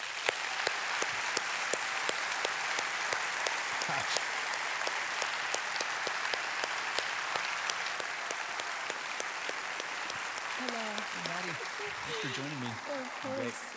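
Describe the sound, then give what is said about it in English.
Audience applause fills a church service linked across several campuses, greeting a guest on Mother's Day; dense, steady clapping runs throughout, and near the end a voice rises briefly over it. “would you please, across all of our campuses, would you put your hands together and give a warm Traders Point welcome”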